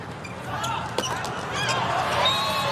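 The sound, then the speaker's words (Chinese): A volleyball serve by Dong Yuhan of China in a match against Poland: one sharp thump of the ball being struck, about a second in, over a steady background hum of arena noise. “董宇涵罚球。”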